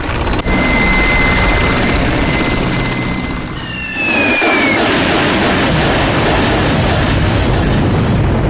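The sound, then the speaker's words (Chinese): Loud, steady motor roar with a thin whining tone as powered paragliders and hang gliders take off at night during a military exercise; the drone dips briefly partway through, then returns at full strength. “陈勇率领的三角翼分队首先起飞，动力伞分队在他们后面也起飞了。”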